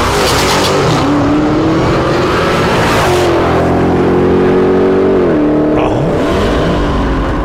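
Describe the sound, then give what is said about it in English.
A Dodge Demon car drives by with a loud, continuous engine roar. Its pitch climbs gradually and then drops in steps toward the end. “Here's the sound of a Dodge Demon driving by. Watch carefully because you won't see it long.”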